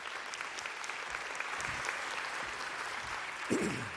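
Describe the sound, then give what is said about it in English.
An audience applauds to welcome a guest called up to the front, producing a steady, even patter of many hands clapping throughout, with a short voice cutting in near the end. “Let's give him a hand.”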